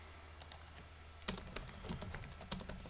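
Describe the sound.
Keystrokes on a computer keyboard as a question is typed, a few sparse soft clicks and then a quicker run of sharper taps, quiet and with no talk.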